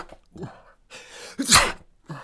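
A single loud sneeze bursts out after a few short breathy inhales, followed by a quieter exhale; no talking.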